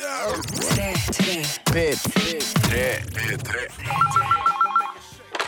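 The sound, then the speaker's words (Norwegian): A telephone rings for an incoming call. One short electronic trill flips rapidly between two tones and follows a stretch of lively talk. “Det er drittungen din fra Horebyen Stavanger som ringer deg.”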